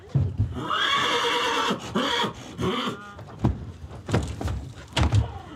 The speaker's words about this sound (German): Der reinrassige Hannoveraner Hengst ist zurzeit das erfolgreichste Pferd aus dem Stall der Insulanerin.